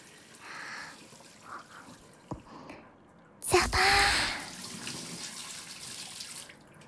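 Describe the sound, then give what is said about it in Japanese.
Hot water pours from a tap into a wooden bath bucket. After some soft rustling and a sharp knock, a splashy burst begins the flow, which settles into a steady, fairly loud pour before stopping. “湯桶にお湯をためて、”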